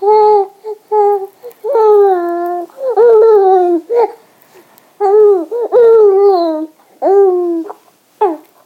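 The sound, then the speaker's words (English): A baby being fed babbles and gurgles in many short, bright, tonal bursts with wavering pitch and gaps of quiet between them, loud and close with no adult talk over it. “No, never mind babbling, just swallow it.”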